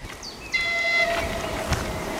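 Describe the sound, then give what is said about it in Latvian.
A train sounds its horn near the tracks at a forest stop: one short, steady, chord-like blast over a low rumble, with a lower tone lingering briefly after. “Re, kur jau vilciens signalizē, esmu pārāk tuvu sliedēm”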